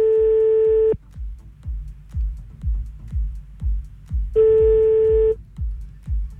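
Telephone line tones while calling a number back: two steady humming tones about a second each, separated by a gap, over a regular low thumping pulse that runs throughout.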